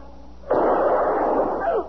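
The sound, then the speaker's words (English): One sharp gunshot cracks out during a tense armed standoff outside a hospital. The loud blast is followed by a long, rumbling tail that fades out. “Oh, dear God. Mister, you shot him. I had no choice.”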